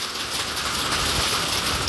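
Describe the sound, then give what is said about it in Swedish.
Heavy hail pelts down at a home during a thunderstorm and downpour, forming a loud, dense, steady roar of countless rapid impacts. The hiss-like clatter keeps an even intensity throughout, with no voices. “Det är ljudet av när det haglar det här ordentligt hemma hos Annika Svensson”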